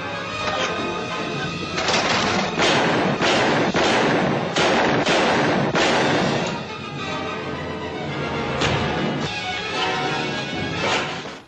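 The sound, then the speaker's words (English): Gunshots ring out in a Superman radio drama, with many loud, sharp bangs in an uneven volley over a dense, noisy backdrop. “After the bad guy realizes that Superman is immune to his bullets, he throws the gun at him.”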